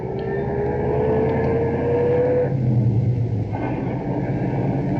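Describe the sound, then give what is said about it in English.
A car is driven along with a steady, loud, low engine rumble and a faint tonal whine that holds for a few seconds and then drops away, the drone continuing without voices. “Nice to be driving a car again.”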